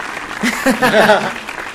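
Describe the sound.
Brief audience applause for a guest, a light patter of clapping running under a speaking voice through the short clip.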